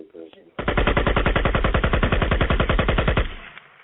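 Rapid burst of automatic gunfire: many loud shots in a fast, even rhythm that run for about three seconds, with a faint, brief noise before the burst starts.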